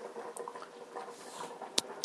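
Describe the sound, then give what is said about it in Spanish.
Broth with potatoes bubbles in a pot after hours of simmering, a soft, continuous wet burble of small pops and gurgles, with a couple of sharper pops near the end and no talking. “3 horas y media desde que empezamos a hacer este caldo, que sigue aquí borboteando, ya con todos los ingredientes, incluidas las patatas.”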